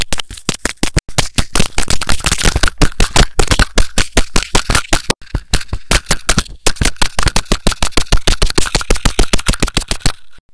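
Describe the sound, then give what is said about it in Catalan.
Rapid tapping on a microphone, with many loud, sharp knocks in a fast, fairly steady rhythm that runs for about ten seconds before stopping. “jetzt gibt's hier ein bisschen Getepper auf dem Mikrofon.”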